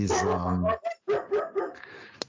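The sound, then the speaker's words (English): A pet dog barks a few times, starting with a loud drawn-out bark and followed by shorter, sharper yips that fade out quickly. “that was a dog. That was my dog.”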